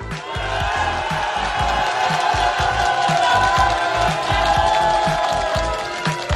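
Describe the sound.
A live audience cheers and whoops in greeting at an outdoor radio concert beside the Teatr Zdrojowy in Polanica, Poland. The crowd noise is a loud, sustained roar with applause, steady from start to finish.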